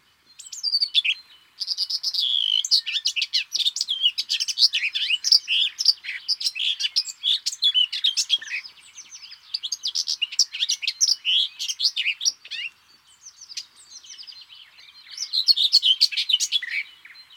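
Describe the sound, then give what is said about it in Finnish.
Garden warbler song that opens by mimicking a skylark: long, rapid runs of bright, high warbling notes in several extended phrases separated by brief pauses, clear and prominent with no voices. “Pensaskerttu osaa myös matkia. Eikö tässä alussa kuulukin kiuru?”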